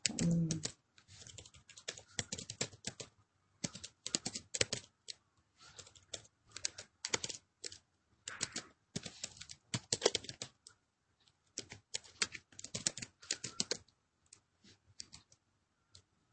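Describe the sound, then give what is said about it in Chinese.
Quiet, continuous typing on a computer keyboard, with many irregular key clicks and short pauses running throughout, with no talk. “我再给你打字啊”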